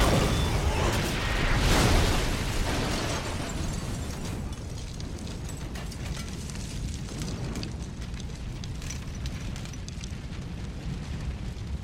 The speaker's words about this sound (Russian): Взрываются машины на стоянке.